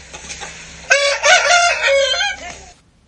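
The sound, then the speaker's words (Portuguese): Backyard chickens by a henhouse, kept with ducks and pigeons: a rooster lets out one long, loud crow after a few soft clucks, then the sound cuts to quiet. “E tem um pato também. Tem patos, galinhas, pombas.”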